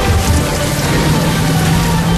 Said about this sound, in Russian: Ливень, а в салоне. Смотрите, что в салоне. За окном.